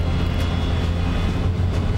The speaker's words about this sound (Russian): Самолет выруливает на взлетную полосу.